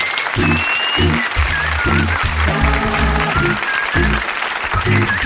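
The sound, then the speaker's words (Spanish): Audience applause at a live variety show as the orchestra director is introduced, a dense, loud crackle of clapping that runs for the whole stretch over rhythmic band music. “por favor, un fuerte aplauso para él.”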